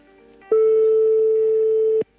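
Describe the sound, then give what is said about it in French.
A ringback tone on an outgoing telephone call: one loud, steady, mid-pitched beep lasting about a second and a half, heard alone. “Ça sonne.”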